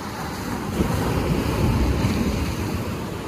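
A big ocean wave breaking on the shore makes a loud, sustained rushing wash of surf. Wind buffets the microphone, and the sound swells in the middle and eases toward the end.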